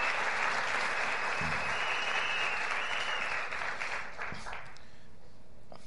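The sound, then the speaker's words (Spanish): Audience applause for a couple asked to stand at a gathering: steady, dense clapping that holds level, then gradually thins and softens toward the end. “a Rolando y a Noemí que se pongan en pie para poderles dar un aplauso por esto”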